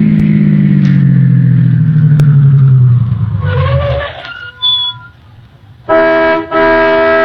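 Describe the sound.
A car pulls into a gas station, its engine winding down with falling pitch. A short high ding follows, then two loud honking horn toots.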